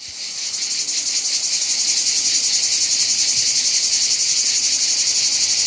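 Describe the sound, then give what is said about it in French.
A cicada sings in summer heat, giving a loud, high, steady buzzing drone. The drone throbs with a fast, even pulse and carries on alone without a break. “La cigale, c'est le son de l'été, n'en déplaise aux stars de la pop et aux disquaires.”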